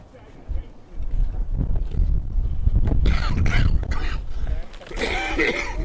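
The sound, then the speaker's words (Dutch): Wind buffets a microphone outdoors at a camp breakfast, producing low, rumbling gusts that swell and ease unevenly while people talk beneath the noise. “There's a lot of wind again.”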